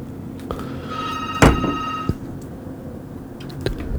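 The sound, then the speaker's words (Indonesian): Ringback tone heard on an outgoing phone call that goes unanswered: one steady, buzzing tone lasting about a second, with a few sharp clicks and handling noises around it. “Bu Resmi, ternyata gak bisa keangkat ya teleponnya. Kenapa? Oke, sebentar.”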